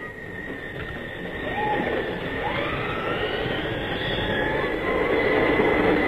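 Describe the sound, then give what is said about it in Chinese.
An express train bound for Vienna pulls into a station, a dense rumbling roar of rolling stock with thin squealing wheel tones, building slightly in loudness as it arrives. “注意，开往维也纳的快车到了。 注意注意，21次要进站了”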